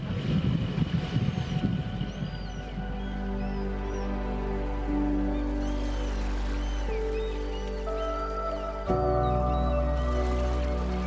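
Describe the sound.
Boat engine drone while the boat speeds up from under three knots on a choppy sea under wind. A steady, rich hum steps up in pitch as it accelerates, with a sharp jump near the end. Rushing noise fills the opening seconds.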